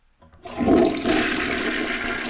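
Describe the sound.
A toilet flushes. A rushing gurgle of water surges up and settles into a steady, loud stream of draining water.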